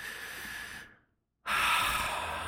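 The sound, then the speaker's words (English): A deep breath taken during a guided tapping exercise: two long, airy rushes of breath separated by a short stretch of silence. “take a nice big deep breath for me”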